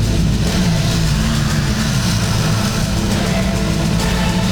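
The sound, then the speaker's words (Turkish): Engines of a vehicle convoy in a security training drill ahead of a NATO summit, a loud, steady low rumble and hum that holds constant throughout. “Eğitimin en kritik anlarından biri yaşanıyor. Araç konvoyu saldırı altında. Ekipler de o saldırıya anında müdahale ediyor.”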